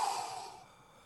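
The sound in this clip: A single breathy exhale, soft and airy, starting at moderate strength and fading away within about a second.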